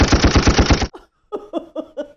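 Machine-gun fire: a loud rapid burst of about eight shots cuts off abruptly, followed after a short pause by a few quieter, more spaced shots.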